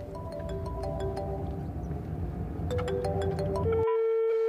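A telephone rings in a film with a bright electronic ringtone melody of stepped, sustained tones over a low rumble, ending on one held note.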